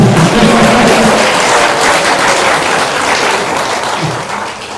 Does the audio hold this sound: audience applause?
yes